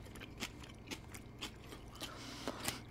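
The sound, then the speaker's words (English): Crisp crunching bites into freshly made food, a series of short, sharp crunches spaced irregularly over a faint, steady background, with no talk. “Honestly, I can't wait. I'm drooling. I gotta take a bite.”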